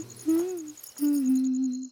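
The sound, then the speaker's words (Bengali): Low owl-like hoots break a still, quiet deep-night hush: two steady, tonal calls, the first short and the second longer and drawn out at an even pitch, with no talking. “রাত গভীর, চারিদিক নিস্তব্ধ, কিছু রাতচরা পাখির ডাক শোনা যাচ্ছে।”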